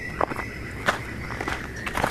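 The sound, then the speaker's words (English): Footsteps walk down the irregular steps of a forest track leading to the Hawkesbury River, a few uneven, crunching treads with soft scuffs between them. “We're walking down the irregular steps of a track in a forest that leads down to the Hawkesbury River”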